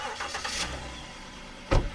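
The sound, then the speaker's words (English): A car engine starts at a home. A faint low rumble comes first, then a brief, louder burst of engine noise near the end. “starts one of the vehicles he has at his home in Muskego”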